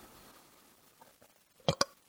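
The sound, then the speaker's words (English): A small, weak burp: two brief, quick, quiet bursts close together near the end, after near-silence. “Nothing's worse than when you're trying to burp, and then you get this little nothing of a burp.”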